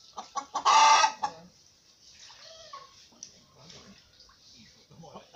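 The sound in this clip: A rooster clucks in short, separate bursts. Early on it lets out one loud, harsh, drawn-out call, followed by quieter scattered clucks and small noises.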